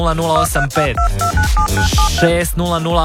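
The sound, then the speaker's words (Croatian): Several short phone keypad beeps sound in quick succession as an SMS is typed, mixed with a voice that runs through the whole stretch. “Zato tipkaj odmah SMS na”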